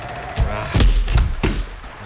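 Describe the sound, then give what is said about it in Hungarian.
A door is slammed shut on a flock of wet sheep being driven in out of the spring rain, giving a few heavy, low, booming thuds in quick succession that stand out over a steady background rumble. “Csukjátok rájuk az ajtót,”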